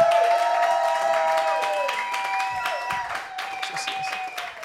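An audience claps and cheers to welcome a guest on stage, a dense, steady applause with a sustained melodic tone running underneath.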